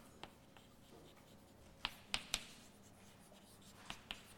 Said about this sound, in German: Ich schreibe den Kommutator auf.